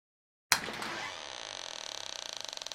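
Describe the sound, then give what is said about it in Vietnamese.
A latch clicks open sharply, then the hinges of an old, long-unused door give a long, shrill creak. The creak breaks into a rapid, regular stutter of pulses toward the end. It is heard alone, with no voices. “Tiếng chốt vừa được mở, cùng với tiếng kêu rít tai của bản lề cánh cửa cũ lâu ngày vừa vang lên bên tai của Kiều”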